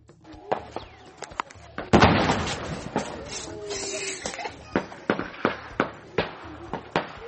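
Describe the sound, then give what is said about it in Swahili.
Gunfire from the Democratic Republic of Congo's army fighting suspected rebel fighters: many sharp cracking shots at irregular intervals, a louder, denser burst early on, then spaced single reports. “Huo ni mlio wa risasi kutoka jeshi la Jamhuri ya Kidemokrasia ya Kongo FARDC, likikimbizana na wapiganaji wanaoshukiwa kuwa ni Maimai”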